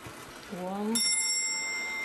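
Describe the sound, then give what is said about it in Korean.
Chime of an old weight-driven clock, wound weekly, sounding a single bright, ringing strike that sustains and slowly decays; a brief voice is heard just before the strike. “3시로 와서 3시가 울리고. Still working. Yeah, still working. 이렇게 오래된 시계가 지금도 똑같이 작동을 하고 있는”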